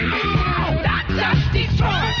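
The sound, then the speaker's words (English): Screams and harsh yells from a fight scene with punches in an action film: several loud, overlapping shouted cries with strained, shifting tones. A brief dip in loudness falls about halfway through. “Powerful action with punches. Screams.”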